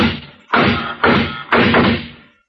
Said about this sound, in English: Those shots came from across the street. Yeah. Someone was lying in wait for us over there.